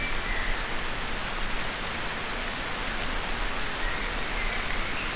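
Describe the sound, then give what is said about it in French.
A light spring rain shower makes a soft, steady hiss of patter that stays at an even level throughout, with no single drops standing out. “Juste une ondée. Ondée printanière.”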